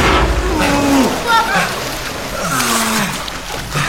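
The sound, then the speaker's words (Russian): Splashing and sloshing water as men fall into it when a grate opens, with loud voices talking and crying out over the churning water. “Решетка открывается, мужчины падают в воду.”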